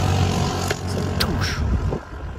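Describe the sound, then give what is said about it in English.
French police four-wheelers speed around at a protest, their engines making a loud, rough, continuous roar that surges and dips. “But these are French cops on four wheelers, one driving, and the others are shooting rubber bullets as they speed around.”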